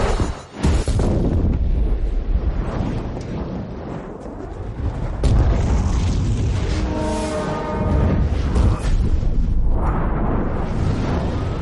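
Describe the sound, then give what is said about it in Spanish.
A turbine explodes in the 2015 action thriller Hitman: Agent 47, heard as a loud, continuous roaring blast with rumbling bursts that churn on for several seconds. “La turbina succiona a los soldados que entran en ella y explota.”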